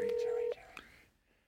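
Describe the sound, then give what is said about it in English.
A telephone being dialed for a call: a steady electronic phone tone holds for about half a second, then breaks off into a brief click under faint voices. “He's going to make a great phone call. I'm going to call Jerry Blavitt.”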